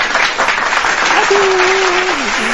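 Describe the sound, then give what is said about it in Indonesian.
Steady applause fills the whole stretch, a dense, even patter of clapping hands at a constant loud level. “Oke, okay, aplaus. Oke, okay, aplaus dulu, Yeah.”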